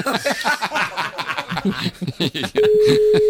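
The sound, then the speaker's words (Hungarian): People talk and laugh, then a telephone call starts ringing out as a steady, even electronic tone that holds to the end. “Már hívjuk is.”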